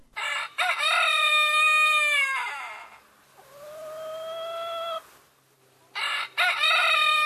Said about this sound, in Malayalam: ഇതിൽ മുന്നിട്ട് നിൽക്കുന്ന ഒന്നാണ് പൂവൻ കോഴിയുടെ കൂവൽ.